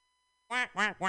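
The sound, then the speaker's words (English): A human voice imitates a duck, giving three loud, nasal quacks in quick succession after a short silence. “that's an impression of a duck doing the song by the way”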